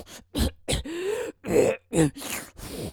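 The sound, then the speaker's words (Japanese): A person chokes and coughs from a strong smell, with a string of short, harsh coughs and throat-clearing bursts broken by groaning breaths. “鼻にこれ、あー、鼻にきた。あー、むせる、むせる。”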